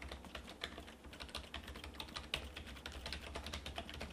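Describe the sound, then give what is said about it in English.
Typing on a computer keyboard while entering a web address: a quick, steady run of faint key clicks with no talk. “Okay, press enter.”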